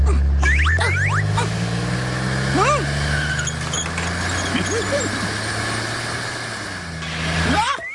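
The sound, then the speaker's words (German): A race car engine in a children's story drones low and steady, swelling slightly toward the end, with voices and squeaky gliding tones playing over it. “Ja, ich bin Kalli Rennauto und ich bin am allerschnellsten. Soll ich dir schnell dein Paket nach Hause fahren?”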